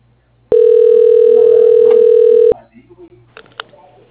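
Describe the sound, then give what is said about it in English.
A telephone ring tone sounds on the line as a call is transferred to an operator: one steady electronic tone held for about two seconds, followed by faint low clicks and murmur. “Please stay on the line while your call is transferred to the operator.”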